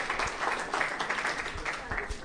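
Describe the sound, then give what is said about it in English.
Crowd cheering and applause at an election count for a Brighton and Hove constituency, heard as a steady, dense wash of clapping and cheering voices that holds at an even level throughout. “And quite a mental mob approach to cheering, maybe, but even so.”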